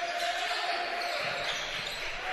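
Basketball dribbling during a boys' high school Thanksgiving tournament game between LA and PCA, with the bounces buried in a steady, loud wash of noise throughout.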